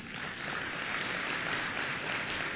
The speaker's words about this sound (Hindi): ये व्हाइट कपड़ा पहन करके देखो कैसे अच्छा लगता है ताली बजाओ ना